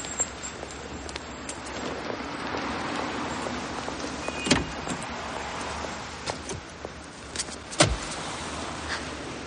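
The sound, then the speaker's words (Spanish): Person getting out of a car: two sharp clunks, likely a door, stand out over a steady, faint bed of background noise, with no talk. “Al momento, Steven sale de su coche y la sorprende.”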